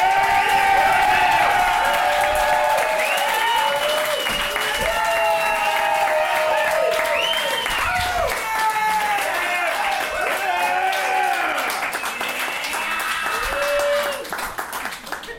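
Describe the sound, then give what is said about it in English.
Audience clapping and cheering for a comedian at a comedy show: loud, steady applause with shouts and whoops throughout, easing off slightly near the end. “Shut up, you can't clap again.”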